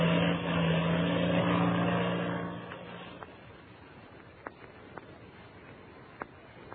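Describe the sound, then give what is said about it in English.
A black two-seater airplane takes off from a dried lake bed, its propeller engine droning loud and steady, then fading away to a faint hum. A few soft clicks follow. “Two shadowy figures, Patsy Donovan and the Mexican boy Pebbles, listened to the takeoff of the black two-seater. And then, when the sound of the engine had faded in the distance,”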